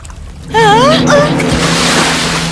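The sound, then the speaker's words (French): Rushing, splashing salty sea water as someone falls into the sea: a loud, sustained wash of waves begins suddenly after a quiet moment, with a wavering vocal exclamation over its start. “Oh, oh, de l'eau salée. On dirait que je suis tombée dans la mer.”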